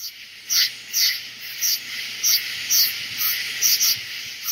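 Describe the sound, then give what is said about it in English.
Southern summer night ambience, with insects chirping in repeated high-pitched bursts at a fairly regular pace over a low, steady background hum. “Here's a little southern summer night to get us in the mood for night and darkness.”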